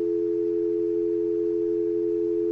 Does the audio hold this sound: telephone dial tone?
yes